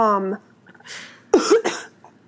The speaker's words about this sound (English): Right, I just coughed.